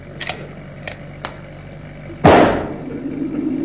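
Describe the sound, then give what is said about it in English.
A loud gunshot bang fired from a van at a balloon, preceded by a few faint clicks, then a long decaying rumble that fades into steady background noise. “They're shooting at the balloon, not us.”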